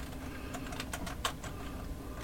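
Many quick, faint keystrokes on a computer keyboard as a web address is typed, uneven clicks with no voices.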